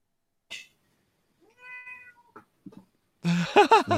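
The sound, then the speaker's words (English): A cat meows in a few separate calls: a short chirp, a longer tonal meow, then brief faint mews, followed by louder, more drawn-out meows at the end against an otherwise quiet background. “Who has a cat? Good, yeah. Oh, yeah, the cat. Yeah, the cat is here, yeah.”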